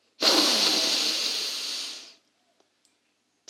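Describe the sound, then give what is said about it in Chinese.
A slow, deep inhale in a children's meditation: one long, steady hiss of breath lasting about two seconds, followed by near silence with a few faint clicks. “那现在就和姐姐一起来做三次的深吸和吐气喽。来，我们深深的吸气。”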